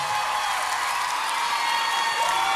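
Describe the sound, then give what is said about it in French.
A concert crowd cheers and applauds loudly for a singer who has just performed. Dense, continuous clapping mixes with whoops and shouts at an even level throughout. “Du bruit pour Marguerite, s'il vous plaît. Du bruit pour Elena, du bruit, du bruit.”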